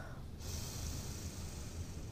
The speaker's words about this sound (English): Take another deep breath in and release.